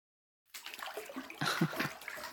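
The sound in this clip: Splashing in dirty bath water: faint sloshing and splattering starts after a short silence and swells into a louder burst partway through.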